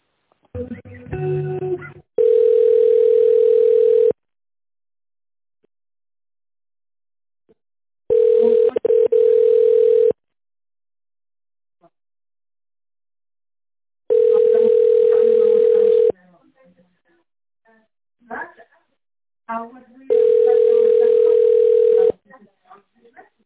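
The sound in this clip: A telephone ringback tone sounds while an office call is being transferred: four long, steady beeps of equal pitch, evenly spaced with silent gaps, with brief voice sounds at the start and between tones.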